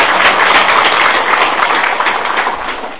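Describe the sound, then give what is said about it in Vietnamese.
Applause from an audience of Buddhist lay followers thanking a monk after his dharma talk at a Vietnamese Buddhist association gathering in the Czech Republic. The clapping is dense, loud and steady, easing off slightly toward the end. “Dạ chúng con cũng xin các quý Phật tử trong một tràng vỗ tay để tri ân thầy.”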